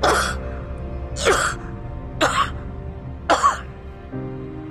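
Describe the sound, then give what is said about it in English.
A woman coughs in four harsh bursts about a second apart, each sharp and breathy, followed by a fainter rasp at the end. “quivers as she coughs.”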